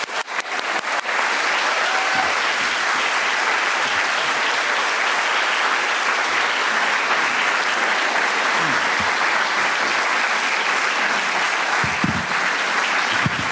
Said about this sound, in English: Please join me in showing our appreciation as we welcome Frank Stella and Michael Oppie.